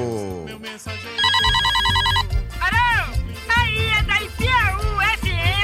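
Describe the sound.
A telephone rings with an incoming call to a radio show, a brief burst of rapid electronic trilling, surrounded by other warbling tones and a voice.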